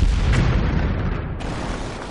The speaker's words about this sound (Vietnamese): 6-7 viên đạn sắc đen nổ tung trên bầu trời, giống như là có lôi cầu vô cùng thô to nổ tung.